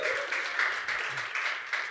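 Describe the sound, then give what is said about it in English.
A church crowd claps steadily for a worker's hard work, giving a dense, continuous applause with a few faint voices mixed in. “give Delore a big round of applause for doing all the hard work”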